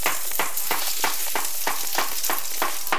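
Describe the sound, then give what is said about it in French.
Sizzling of a bread slice and banana frying in butter in a pan, a steady bright hiss that swells in regular pulsing bursts throughout, with no voices. “On retourne ensuite notre tranche de pain et une banane. Et on laisse cuire de l'autre côté.”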